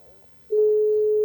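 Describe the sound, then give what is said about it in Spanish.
Ringback tone of an outgoing phone call: after a quiet moment, a steady electronic tone switches on abruptly and holds unbroken, clear and even, to the end. “Suena, suena.”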